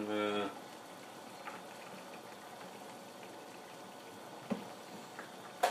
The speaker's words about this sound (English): It's kind of at a boil. Or is this a simmer? What's the difference between a simmer and a boil?